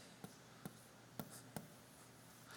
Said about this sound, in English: So let's just draw the timeline here.